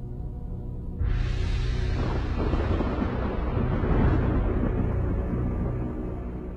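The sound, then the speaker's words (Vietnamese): Explosions boom from the sky: a sudden deep blast gives way to a heavy, sustained rumbling roar that stays loud for several seconds before easing slightly. “Thần chú kết thúc, từ trên tầng không vang lên những tiếng nổ đùng đùng.”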